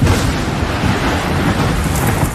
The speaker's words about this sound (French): Et puis un jour... un énorme orage éclate.